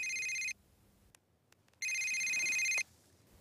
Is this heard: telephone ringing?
yes